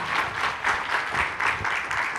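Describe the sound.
An audience applauds to welcome a speaker on stage, steady dense clapping that holds an even level throughout with no voices standing out.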